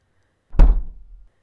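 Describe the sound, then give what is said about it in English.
A door closing with a single heavy, low thunk that decays quickly into silence. “Torturer, give me a few minutes alone with our prisoner. We shall see if I can persuade her to the error of her ways. Close the door on your way out.”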